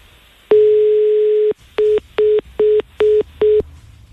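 A telephone line tone after the call is hung up: one steady tone lasting about a second, then five short, equal beeps in an even rhythm, like a busy signal, loud and alone.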